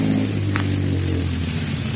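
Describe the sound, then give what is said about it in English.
A car's engine hums steadily as it comes around a curve on a little-traveled highway and slows, a low droning rumble with a wash of road noise and no voices. “A car comes around the curve. Slows up.”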